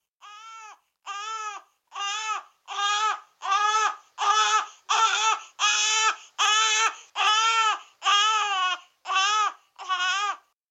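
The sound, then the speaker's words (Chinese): A baby cries in a long, rhythmic series of evenly spaced wails, each a short, strained, high-pitched sob separated by brief silences, growing slightly louder toward the middle. “突然间听见一阵阵的 BB 仔喊声啊。”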